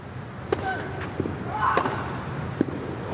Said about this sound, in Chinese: 哇，这球反拍接发球，兹维列夫接进来了，反拍直线的一记 return ace。